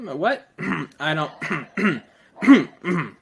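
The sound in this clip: A person clears their throat to get rid of something stuck in it, in a run of seven short, rough, voiced bursts, fairly loud and evenly spaced, with no words spoken.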